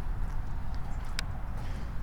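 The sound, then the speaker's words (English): Footsteps walking over ice and then pavement on the way back to a car, a few hard tapping steps over a steady low outdoor rumble. “Maybe I'll walk on this ice now. Yay. Now there's a little bit of pavement I can get to.”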